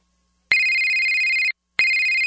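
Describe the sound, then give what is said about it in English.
A telephone rings with a bright electronic tone: one steady ring about a second long, a short pause, then a second ring that is cut off, loud and alone with no voices. “Don't you dread that phone call?”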